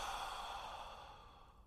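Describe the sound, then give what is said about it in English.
A soft exhale during a guided breathing exercise, one long breathy out-breath that starts at a quiet level and fades gradually toward silence. “And we're going to breathe together just for a few moments. Inhale. Exhale.”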